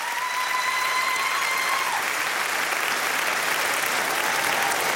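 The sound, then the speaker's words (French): A standing ovation for an orchestra fills France Inter's Studio 104: dense, sustained applause from a large crowd, steady and loud throughout. “Une ovation ici en direct du studio 104 sur France Inter. Un moment rare et précieux, il ne pouvait en être autrement.”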